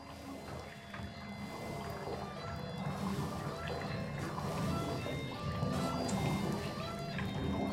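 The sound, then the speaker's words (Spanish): Dense watery sloshing and pouring from electroacoustic devices combined with water in a sound installation, with faint tonal ringing above. The texture is continuous and fairly loud throughout. “dispositivos electroacústicos combinados con agua que al activarlos y operarlos generan diferentes sonidos del agua”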